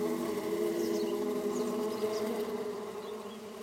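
A swarm of honeybees in flight makes a dense, continuous buzzing drone that stays steady throughout and eases off slightly toward the end.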